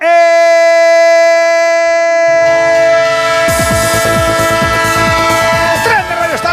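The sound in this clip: Train sound-effect jingle for a radio sports program: a long, loud horn-like whistle tone, then a low rumble joins, followed by rhythmic clattering like wheels over rail joints.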